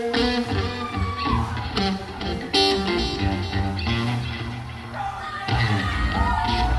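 Live concert crowd yelling and whooping as the drums kick in, with scattered shouts rising over loud, dense band music that swells again near the end.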